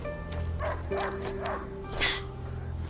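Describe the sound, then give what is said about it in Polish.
Dog barks in a video game sound as a few short yips and barks over a steady tonal backdrop of game audio, with no clear speech. “He stopped barking. He must have found it.”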